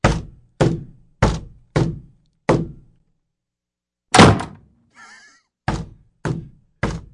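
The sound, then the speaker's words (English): An office door is closed in a run of several dull, wooden thuds with one heavier slam midway, then a short pause and a few more knocks. “Let me close door.”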